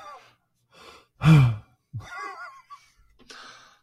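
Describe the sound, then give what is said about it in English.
Deep breaths picked up closely by a microphone: one loud, heavy, sighing exhale stands out among a few softer, breathy vocal sounds with short silences between them. “I mean, it really picks up my deep breaths, huh?”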